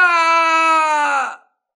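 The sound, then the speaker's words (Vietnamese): An anguished scream of pain: a single drawn-out voiced wail, steady in pitch and strongly tonal, that holds for over a second before breaking off into silence. “Lại một tiếng kêu thảm thiết nữa vang lên.”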